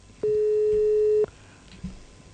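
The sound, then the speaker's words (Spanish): A telephone busy signal on an unanswered call to a police station: one steady mid-pitched tone lasting about a second, then faint line noise with a few soft clicks. “No nos van a dar bola, no atienden el teléfono.”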